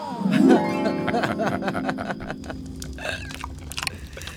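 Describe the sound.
Chewing and biting into meat from a leg: wet, crunchy mouth sounds with low vocal noises over the top, louder at the start and then settling into steady chewing.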